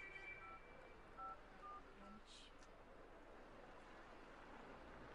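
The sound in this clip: Telephone keypad tones as a home number is dialed: a few short, faint electronic beeps in quick succession over a soft background hiss, followed by quiet.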